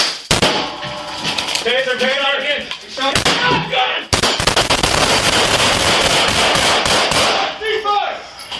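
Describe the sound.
Gunshots fired by police at a suspect ring out as a rapid, dense volley of many sharp cracks lasting a few seconds, preceded by loud shouting voices.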